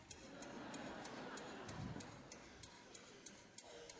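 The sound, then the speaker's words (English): A clock ticks in a steady, even rhythm, many crisp, faint ticks evenly spaced over a low, hushed background. “That ticking, it's just terrible to me. It just feels so oppressive.”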